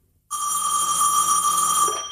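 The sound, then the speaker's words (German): A telephone rings with an incoming call. After a brief silence, a single bright electronic ring starts abruptly and sustains at an even, fairly loud level to the end. “Einige Tage später erhielt ich einen zweiten Anruf.”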